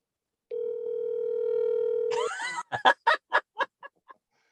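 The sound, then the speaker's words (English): A telephone dial tone holds steady for about two seconds at the start of a call to a friend, then breaks into a brief warbling sweep and a quick run of short, choppy bursts. “Hold on. I'm calling a friend.”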